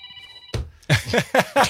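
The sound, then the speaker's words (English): A phone ringer sounds for about half a second as a steady electronic multi-tone ring, then stops. A voice talks afterward. “Turn that ringer off, man.”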